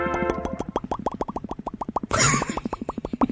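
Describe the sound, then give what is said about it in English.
Mouth noises made by a person: a rapid, steady train of many hollow popping plops in an even rhythm, broken midway by a brief hissy burst before the popping resumes. “Making mouth noises over there, huh?”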